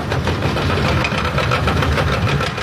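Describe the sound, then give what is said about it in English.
A skid steer engine runs steadily while clearing debris around a fire-damaged 500,000-square-foot frozen food storage warehouse. It is a loud, continuous mid-pitched drone with a rough, knocking pulse and no voices. “That's the sound of a skid steer clearing up debris surrounding the 500,000-square-foot warehouse.”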